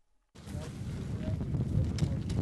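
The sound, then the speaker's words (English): Hot wind blowing across a grass field at a wildfire helicopter base, beginning abruptly after a brief silence as a steady, rough, low rumble of gusts buffeting the microphone. “A hot wind blows and three choppers, whirlybirds as the fire crews call them, sit idle in a grass field.”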